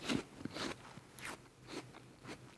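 Bites into a crisp, hard Elstar apple give several faint, irregular crunches with a little wet chewing between them.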